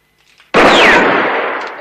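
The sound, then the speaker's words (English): A single gunshot is fired at a gun lying on the ground during a western showdown: a sudden, loud, sharp crack that bursts out of near silence and trails off in a long, slowly fading roar. “Valance shoots at the gun on the ground”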